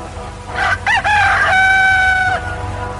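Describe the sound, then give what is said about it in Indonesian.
A rooster crows at dawn: a loud, clear call that opens with a few wavering notes and then holds one long, steady, high tone before cutting off, with no voices. “Saat kokok ayam jantan terdengar membelah subuh yang bisu”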